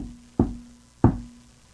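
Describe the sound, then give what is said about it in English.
Two soft knocks on a door, evenly spaced about two-thirds of a second apart, each a dull thud with a short fading tail, heard alone without any talk. “Then gently, a little quieter than the first time, the knocking came again.”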